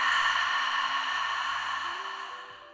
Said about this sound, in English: continue now to breathe in and out through your mouth. With open lips.